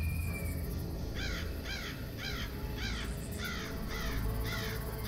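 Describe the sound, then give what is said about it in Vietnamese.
Harsh cawing of a crow perched on a house roof comes in a steady run of evenly spaced calls, each a short raspy burst, fairly quiet over a soft background hiss. “Tiếng con quạ réo lên vang vọng.”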